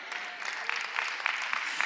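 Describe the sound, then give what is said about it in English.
A church audience clapping during a sermon, a brisk, steady burst of applause with many overlapping hand claps, even in loudness for about two seconds. “that was me giving you a pause to clap”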